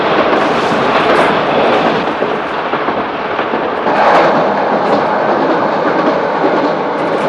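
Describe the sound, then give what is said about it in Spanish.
A train crossing the Ural mountains runs along a winding track with constant curves, giving a loud, steady rumbling roar with rattling clatter throughout. No voices. “Dentro del tren los viajeros son zarandeados por las constantes curvas del trazado.”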